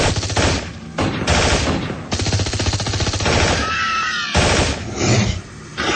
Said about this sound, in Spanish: Las balas hacen estragos entre los cascarudos, pero los hombres robots se resguardan y disparan con violencia y puntería.